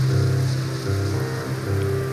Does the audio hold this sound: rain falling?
yes